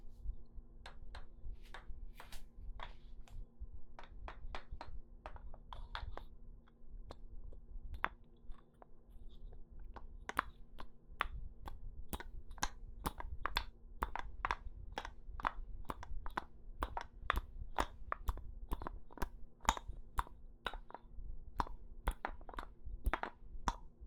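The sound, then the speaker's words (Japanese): A heavy wooden massage tool taps on the shoulders and neck in many sharp, dry knocks with a steady rhythm that grows quicker and denser in the second half, over a low constant hum. “木製で重量感あるんで結構きますよ。これで最初は肩や首を叩くようにして刺激します。”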